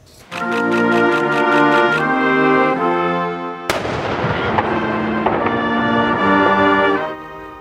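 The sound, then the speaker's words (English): A single sharp cannon boom from a 21-gun vice-regal salute on the steps of a legislature, bursting in loudly and ringing out over sustained tones that continue around it. “overseeing the vice regal salute this afternoon on the steps of the legislature, complete with a 21 gun salute”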